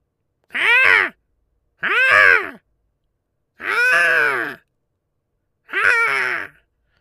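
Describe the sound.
A human voice imitates a squawking bird with four loud, evenly spaced calls, each a harsh, arching squawk separated by short silences.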